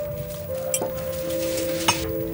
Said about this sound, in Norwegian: Moren dekker på bordet med det fineste serviset sitt